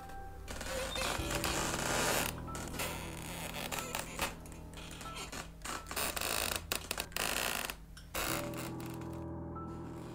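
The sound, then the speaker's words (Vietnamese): A door hinge lets out a long, grating creak behind a man at night. A loud, rasping screech drags on almost continuously, broken only by a few brief gaps. “tiếng ken két của cái bàn lề cờ bỗng nhiên cứ rít lên từng tràng dài lạnh lẽo. Cái thứ âm thanh ghê rợn như muốn xoáy sâu vào trong đầu trong óc của lão.”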